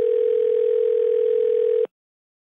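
A telephone ringing tone plays as a call is placed: a single steady, low, buzzing tone holds for nearly two seconds, then stops abruptly into silence.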